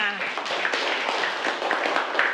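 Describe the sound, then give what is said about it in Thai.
Children clap for a group of classmates during a classroom lesson, a dense, continuous patter of many hands that stays steady throughout, with voices mixed in. “ปรบมือให้กลุ่ม5ค่ะ”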